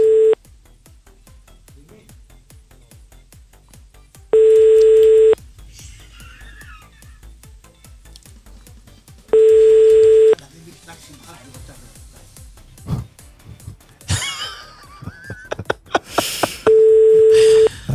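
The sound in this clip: Telephone ringback tone as a call is placed to a brother: three long, steady tone bursts roughly five seconds apart, separated by quiet gaps, with scattered clattering noises toward the end.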